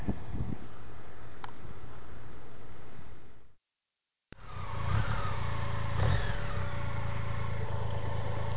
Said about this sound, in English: The K75S finds another GS ride in a route that I thought was going to be paved, and here I am out in the middle of nowhere on dirt.